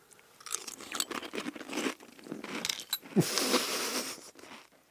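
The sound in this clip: Crunching and chewing of green onion cereal eaten with milk: many dense, irregular crisp crunches in quick succession, moderately loud, with no talking.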